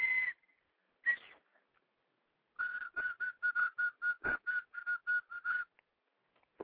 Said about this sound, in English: I said it's a whistle